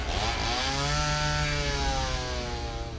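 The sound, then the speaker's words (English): Chainsaw engine running as a horror-movie sound effect, a loud, steady buzzing drone that holds for about three seconds without pause. “Many of you called out specific sounds in horror movies, like the chainsaw in Texas Chainsaw Massacre.”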